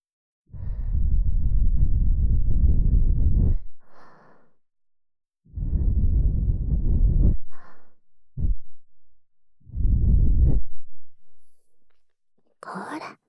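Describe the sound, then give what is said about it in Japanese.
Soft breath blown into someone's ear during ear cleaning: three long, gentle, airy blows with a few shorter puffs between them, breathy and steady, with no talking. “いいわ、私がきれいにしてあげます。息を吹きかけるわね。”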